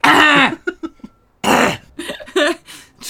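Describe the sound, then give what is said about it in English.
A voice acts out a coughing fit while hiding behind a bush in a garden. It comes as a few harsh, throaty bursts, two long and loud, with smaller hacking sounds between them. “I'm just having a coughing fit behind a bush.”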